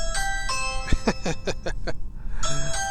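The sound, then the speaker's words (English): A doorbell rings with clear, sustained chime tones near the start and again near the end, separated by a busier patch of shorter sounds. “That's my doorbell.”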